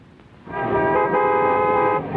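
A car horn blares in one long, sustained, steady honk, a rush hour traffic jam sound effect, rising out of a low road rumble and then cutting back to it.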